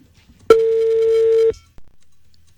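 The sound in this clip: An outgoing phone call ringing unanswered before being rejected: one steady, low beep tone lasting about a second, followed after a short gap by a brief, fading click-like sound.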